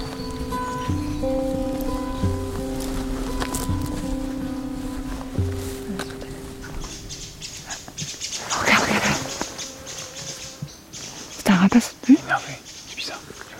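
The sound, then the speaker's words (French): Barn owl calling in the woods: a single harsh, hissing screech rises out of the background while people talk nearby. “Une chouette, c'était bien clair. C'était une effraie qui passait ou non, on n'en saura pas plus.”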